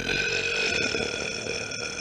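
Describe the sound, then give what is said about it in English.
A voice imitates a long, drawn-out burp made by a video game character, an enemy encountered in the game. The croaking, buzzy sound is held steadily for about two seconds without a break. “I was like, that's a long burp.”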